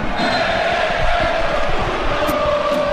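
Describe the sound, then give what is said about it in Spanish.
Málaga football fans at La Rosaleda stadium cheer and chant for their player during a match, a continuous crowd din with rough rhythmic pulses running underneath. “la afición malaguista animando a Chupete y coreando su nombre como chupe.”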